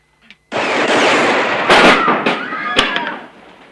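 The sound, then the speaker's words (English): Gunfire shoots a painted attorney's sign to pieces in a Western town street: after a short lead-in, a loud, dense barrage of cracking shots runs on for about three seconds, with sharper peaks scattered through it before it thins out. “He eyes the painted sign, "Ransom Stoddard, Attorney at Law," and shoots it to pieces.”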